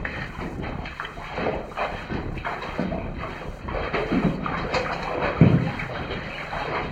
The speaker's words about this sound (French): Et aujourd'hui, nous aurons passé plus facilement, simplement en pataugeant un peu en de l'eau jusqu'au genou. Nous allons franchir cette mare, là.